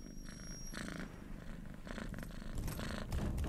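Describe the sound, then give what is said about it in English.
A cat purrs while rubbing around someone's legs, a soft, steady rumble in rhythmic pulses. It is heard alone, faint at first and growing slightly louder toward the end. “comes up and starts purring around your legs a bit.”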